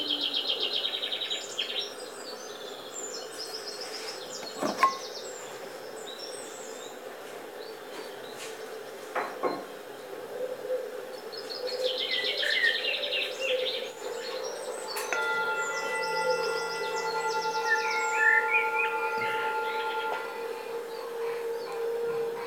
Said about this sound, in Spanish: hay pajaritos, naturaleza, sonando